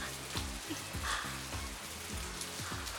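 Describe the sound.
Steady rain falls in a continuous, fairly quiet hiss, with low tones repeating in a slow rhythm beneath it.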